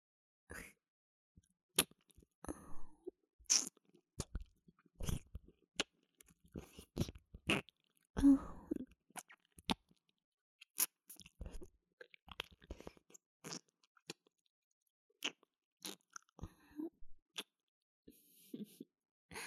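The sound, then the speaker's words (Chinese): Wet mouth sounds of nibbling and tasting at an ear: many short, irregular smacks, clicks and soft crunchy nibbles with quiet pauses between, close and fairly faint, with no talking. “你的耳朵还真是好吃呢，姐姐都忍不住多尝几口了。”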